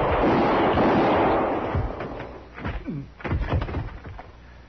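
Gunshots ring out in a 1951 Western radio drama shootout, with a loud opening blast followed by several sharp, cracking reports with short gaps between them.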